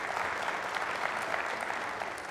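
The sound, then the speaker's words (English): Audience applause for two performers: a steady, moderately loud patter of clapping from a crowd that continues without a break. “Could you give them a round of applause right here?”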